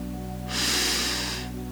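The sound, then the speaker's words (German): A single deep breath taken during a guided relaxation exercise, a soft airy swell lasting about a second over a faint steady low hum. “Tief einatmen, atme die Eigenschaft ein. Mit der Ausatmung schicke sie in jede Zelle deines Körpers.”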